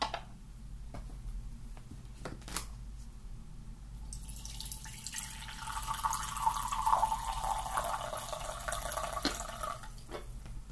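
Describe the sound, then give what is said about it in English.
Green tea is poured and stirred: a few faint clicks, then a soft continuous trickle of liquid running through the middle and later part, quiet over a low background hum. “I think I'm going to have to pour my green tea already. So Let's just have a little moment here. Give this a bit of a, a stir first.”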